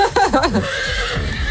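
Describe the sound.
A horse from a herd of about sixty lets out a short, loud, wavering whinny, followed by quieter low rumbling sounds.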